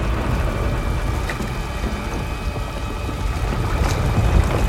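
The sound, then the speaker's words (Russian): Water pours down from a ceiling into a flooded building, a loud, dense rushing roar that holds steady throughout and swells slightly near the end. “Под льющейся водой он падает на колени и воздевает руки.”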